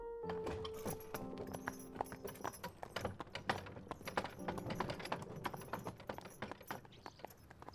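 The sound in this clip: Horse hooves clip-clop in a quick, steady rhythm as a horse-drawn carriage moves along, many soft, hollow knocks following one another without pause at a faint level.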